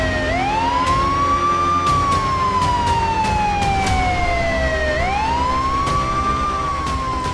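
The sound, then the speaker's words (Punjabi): Police vehicle siren wailing as cars speed past on their way to a raid. The loud tone climbs, slowly falls, then climbs again over a steady rumble of road noise, with no talk. “ਕਾਕਾ ਇਹ ਗੱਡੀਆਂ ਕਿੱਧਰ ਨੂੰ ਧੂੜਾ ਪੱਟਦੀਆਂ ਜਾ ਰਹੀਆਂ ਨੇ? Raid ਦੀ ਤਿਆਰੀ ਵਿੱਚ ਆ”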